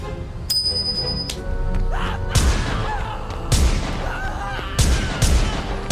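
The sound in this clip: Gunshots fired into the air, several sharp booming blasts in quick succession within a busy mix, with a brief high ringing tone early on.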